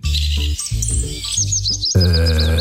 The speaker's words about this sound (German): Der Filtes-Laubsänger natürlich. Oh, wow. Filtes-Laubsänger, die klingen so.